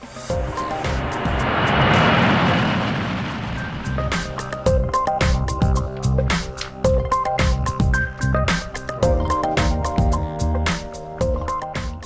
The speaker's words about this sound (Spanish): ¡Despegamos!